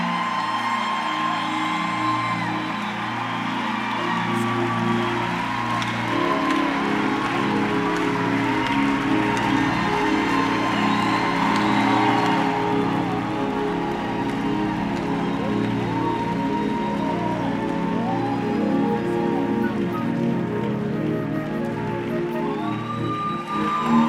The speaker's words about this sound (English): Please put your hands together as we welcome Dr. Gumbi Bazalwane.